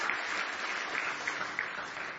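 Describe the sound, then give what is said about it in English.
An audience clapping hands in praise during an evening church service, a steady, moderate round of applause with a few sharper individual claps standing out. “Praise now give him a big hand clap of praise if you love him tonight.”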